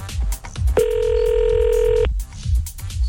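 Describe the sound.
A steady telephone tone on an international call to Canada holds for about a second over a pulsing rhythmic background, the call being dialled and ringing.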